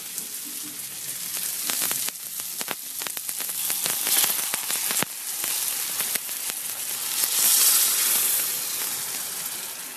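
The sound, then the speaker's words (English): Cooking stock is poured into a hot pan of rice seasoned with paprika, saffron, wine and cayenne, setting off a loud, continuous sizzle and hiss with crackling pops that swells toward the end. “And then the rice. And so now I'm going to add the cooking stock.”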